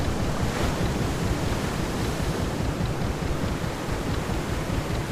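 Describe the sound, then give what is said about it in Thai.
Ocean waves and wind rush steadily as a yacht sails out to sea, a dense, even roar with no separate wave breaks and no voices. “เรือแล่นออกสู่กลางทะเล”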